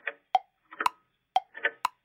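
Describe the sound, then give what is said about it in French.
Ticking of clocks, with sharp, regular ticks about every half second alternating with softer, duller tocks in a steady, quiet tick-tock rhythm. “On n'entendait que le tic-tac ininterrompu des horloges.”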